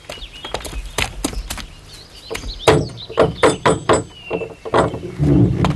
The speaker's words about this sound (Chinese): 不用你敲门。我自己来。